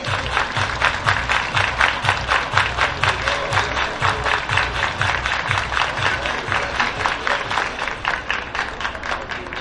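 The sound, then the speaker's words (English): Baseball stadium crowd at a Louisville game clapping in unison, many sharp, evenly spaced claps in a steady rhythm over a bed of crowd noise. “Everybody clap your”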